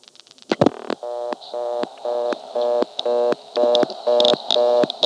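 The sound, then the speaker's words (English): Digit 5 is dialled on an old step-by-step telephone exchange where that digit is blocked. A quick run of faint clicks is followed by a buzzy tone pulsing on and off at a steady rhythm. “So I'll dial 5 now.”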